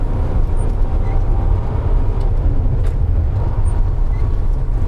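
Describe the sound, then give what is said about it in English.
A truck with a side wing drives along a gravel road, a steady loud rumble of engine and road noise with a few faint high clicks and no voices. “And we are now on a gravel road.”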